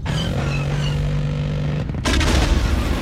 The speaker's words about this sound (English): We got her! We blew that ship out of the air! You idiot! That was fuel tank number 16. She blew it up to cause a distraction.